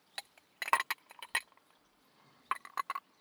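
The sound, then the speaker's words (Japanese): Ice cubes clink against a glass of carbonated juice in bright, sharp taps. They come in two quick clusters separated by a short pause, with no voices. “炭酸のジュース、氷を入れて、”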